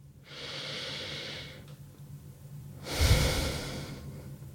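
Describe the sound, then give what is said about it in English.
A deep breath taken during a guided relaxation pause: a long, soft, airy inhale, then after a short quiet gap a louder, breathier exhale, with no talking. “So let's take a moment now, pause, take a deep breath.”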